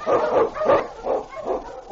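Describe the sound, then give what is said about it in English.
A husky sled dog, a strong Eskimo lead dog on a snowy Yukon trail, lets out about five quick, loud, gruff barks in a rapid rhythm. “On, you husky!”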